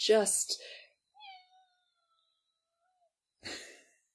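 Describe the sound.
A soft, brief cat meow, quiet and thin, sits in a lull between stretches of a person talking, followed by a fainter second mew.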